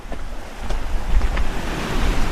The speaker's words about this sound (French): Donc là, à ce moment-là, on est en train de passer euh, au-dessus d'un torrent.